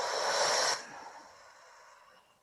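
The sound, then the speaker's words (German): Deep breath during a guided breathing exercise: a loud, airy rush of breath holds steady for under a second, then cuts off and trails into a faint, fading hiss, with no voices. “Und wir atmen jetzt viermal zusammen tief ein und aus. Durch die Nase ein, halte kurz inne und atme dann durch den Mund aus.”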